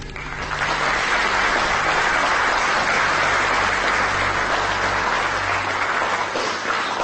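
Applause fills a conference hall, a dense and steady wash of many hands clapping that starts almost at once and holds loud and even for several seconds without talk.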